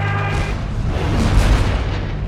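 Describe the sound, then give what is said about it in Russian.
Explosion throwing up a column of water and foam near a submarine: a loud, sustained low roar and rumble that fills the whole moment, with a steady low hum beneath it and no sharp break. “Столб воды и пены, поднятый мощным взрывом, на мгновение закрыл лодку от глаз капитана-лейтенанта.”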